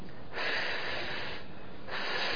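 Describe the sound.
A person voices the Arabic letter ḥāʼ as a voiceless, breathy rush of air from the throat, two sustained hissing exhalations with no voicing.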